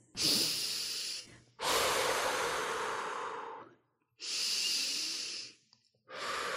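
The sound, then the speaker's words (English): Deep breathing: a few long, loud, airy breaths separated by short silent gaps. The longest is a drawn-out breath of about two seconds. No one talks. “I have to take a deep breath and stay calm”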